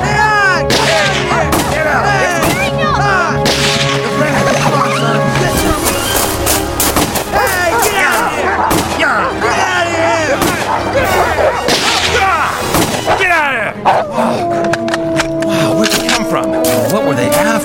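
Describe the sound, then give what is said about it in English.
Gunshots fired up into the air, a dense barrage of many sharp cracks running the whole time, mixed with other loud sounds and voices. “now let's both shoot up in the air”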